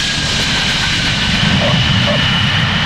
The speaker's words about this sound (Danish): få minutter lander vi i København. Vi anmoder passagererne om at spænde sikkerhedsselerne og slukke cigaretterne.